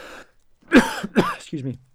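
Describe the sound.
A man coughs, two harsh throat-clearing bursts close together, then a short low voiced grunt as he recovers; the coughs are fairly loud against an otherwise quiet background.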